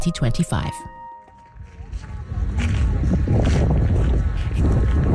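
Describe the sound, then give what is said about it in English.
Strong wind sweeps across a flat, white salt expanse about 60 kilometres wide, a loud, steady roaring rush that builds in after a brief moment of talk at the start and then stays constant. “We're going on a journey to what sounds like a pretty windy place.”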